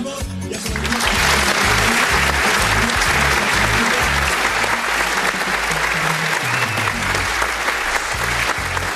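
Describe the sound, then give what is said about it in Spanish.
Loud applause from a radio studio audience swells in within the first second, then holds as a thick, steady wash of clapping. “vamos a recibir con otro fuerte aplauso a nuestra colaboradora, Carita Morena.”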